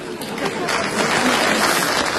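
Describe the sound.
Applause rises into a loud, steady wash of clapping that fills the whole stretch without pause.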